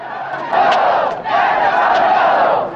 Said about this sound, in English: The crowd has gathered outside the police station, held back by a police barricade.